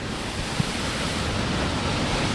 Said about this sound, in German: Das Meer an der Beiruter Korniche schäumt.